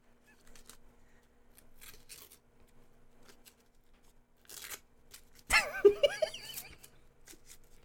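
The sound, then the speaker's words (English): A paper document being ripped apart makes a few rough tearing bursts, the last longer and louder, with a squeaky, honk-like sound over the final tear. “Oh, sorry. I was ripping apart my will.”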